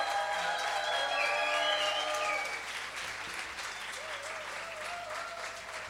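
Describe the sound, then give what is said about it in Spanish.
Concert audience applause rings out after a song, with dense clapping and some cheering calls on top. It is louder for the first half, then eases to a softer, steady patter. “Andrea Bazán, por favor, el aplauso.”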